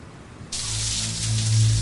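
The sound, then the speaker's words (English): Shower water bursts on abruptly after a half-second of quiet and then runs as a steady, full hiss of spray to the end, with no voices. “Now, as Sonny stands in the shower, water streams down his face.”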